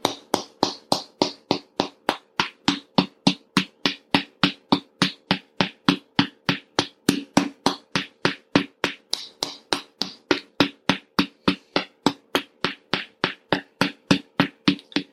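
Sharp tapping on the GB13 and GB14 acupressure points on the right side of the head, many crisp finger taps in a steady, fast, even rhythm that continue for the whole stretch without pause.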